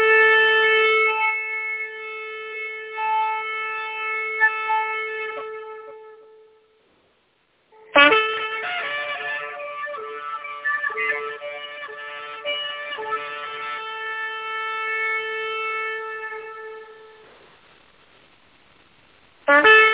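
A siren sounds a clarion call: a sustained, steady harmonic tone fades out, falls silent briefly, then returns for a long stretch. It fades again and begins once more at the very end.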